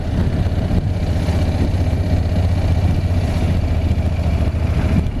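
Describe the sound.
Engine drone of a 2019 Honda NC750X motorcycle with a DCT gearbox, climbing a steep hill in third gear at about 20 mph; a continuous low, even rumble holds steady throughout with no voices.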